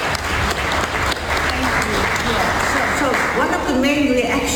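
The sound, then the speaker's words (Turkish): Colleagues applauding Navi Pillay on hearing the news: dense, sustained clapping at an even level throughout, with a few voices rising above it near the end. “Haberi alan Navi Pillay meslektaşları tarafından alkışlarla karşılandı.”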